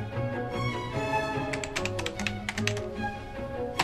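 Fingers typing on a computer keyboard make many quick clicking keystrokes, sparse at first and then dense, irregular bursts through the second half, over a steady tonal background.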